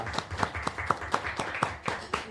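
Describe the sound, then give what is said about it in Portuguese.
Rhythmic clapping at a church gathering honouring a late father: sharp claps in an even, quick beat, about nine in a row, moderately loud and alone. “Uma salva de palmas”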